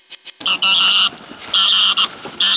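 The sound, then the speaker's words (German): Egyptian goose cackling: harsh, nasal honking calls, first a few short bursts, then longer drawn-out cackles in uneven runs, loud and with no other sound. “Gackt die Nilgans.”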